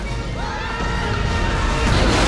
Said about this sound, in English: The locomotive crashes through the farm fence, blanketing everyone in dust.